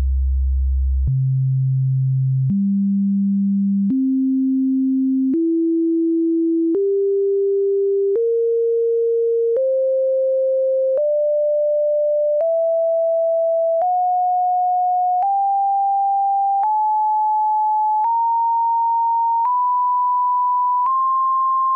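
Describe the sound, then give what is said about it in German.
Pure sine tones step through the overtone series of the note C, sixteen tones of even length climbing from a deep bass fundamental, the jumps in pitch shrinking as the series rises, at a steady level with no talk. “Wir werden uns jetzt so eine Obertonreihe einmal anhören.”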